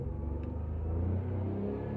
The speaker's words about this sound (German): Jetzt gebe ich mal Gas.